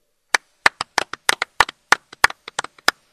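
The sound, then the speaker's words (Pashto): Many people clap their hands to thank the cook who prepared a meal for everyone: many sharp, irregular claps of varying loudness, heard alone with no voices. “نو راځي چې د شمیم د پاره لاسونه وپړکو.”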